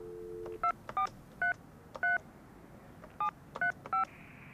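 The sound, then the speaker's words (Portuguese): Telephone keypad dialing produces seven short, bright tone beeps at an uneven pace, preceded by a brief steady low tone, with no one speaking. “Vou ligar de novo.”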